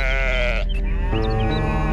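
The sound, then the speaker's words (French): Sheep bleat loudly in a livestock herd on an island. The calls are sustained and wavering, overlapping and shifting in pitch across two seconds, with no talking. “Chaque bêlement, chaque meuglement leur arrache un soupir”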